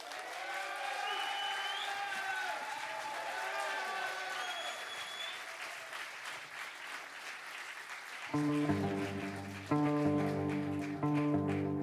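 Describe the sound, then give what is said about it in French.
A huge stadium crowd ovation, like a rock audience filling a football stadium, swells with dense applause and whooping cheers. Near the end, steady music begins beneath the clapping. “une ovation colossale de stade de football rempli d'un public de rock and roll d'à peu près un million de personnes pour Monsieur Mike Mikey, s'il vous plaît.”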